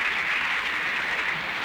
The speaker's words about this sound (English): And the morons in the audience all applauding this.